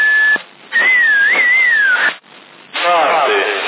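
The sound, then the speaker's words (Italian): A person whistles over a CB radio channel, with a brief steady note and then a longer wavering tone that glides downward. The sound is thin and band-limited, and a voice speaks afterward. “È solo il fischio.”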